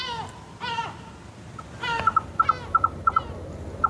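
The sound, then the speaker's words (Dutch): Gulls call in Besalú, Spain, with a few drawn-out harmonic cries followed by a rhythmic run of short, clipped notes. “Ruud Houweling heeft in Besalú, Spanje, 2 meeuwen als directe buren.”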